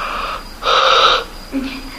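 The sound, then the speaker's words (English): A person yawning: one long, breathy, drawn-out yawn in the middle, with softer breaths before and after it. “Because at this time I'm also yawning”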